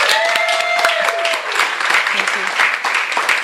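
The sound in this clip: Audience applause welcomes an author at a bookstore reading: dense, steady clapping fills the whole stretch at an even loudness, with a voice talking over it.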